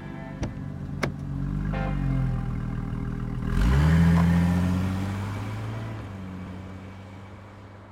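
A car on a drive home: a steady engine drone with two sharp clicks near the start, then a surge as the engine revs up partway through before it settles back into a lower, even hum.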